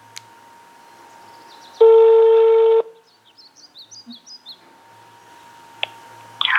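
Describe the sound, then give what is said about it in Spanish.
Telephone dialing tones: a steady, loud tone lasting about a second, then a quick run of short keypad beeps, with faint high chirps in the background. “Vamos a marcar a la primera persona. Vamos a ver si me contesta. Ahí está entrando.”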